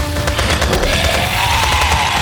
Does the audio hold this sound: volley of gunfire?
yes